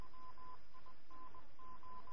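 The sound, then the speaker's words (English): A telephone keypad is dialed to call the police. A rapid run of many short, faint dial tones of uneven length plays over a steady background hiss. “We'll have to phone the police, we will.”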